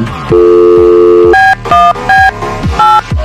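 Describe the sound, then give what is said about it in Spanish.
Telephone keypad tones ring out as a number is dialed for a call, one long beep followed by several shorter beeps in an uneven rhythm, loud and clear. “Ahí estamos marcando.”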